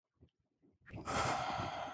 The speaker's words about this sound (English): Take a deep breath.